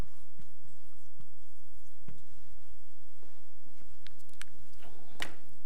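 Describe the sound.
Writing a word on a board during a church lesson: steady, scratchy strokes with several distinct swipes and taps. The scraping is moderately loud and continuous, with no talk.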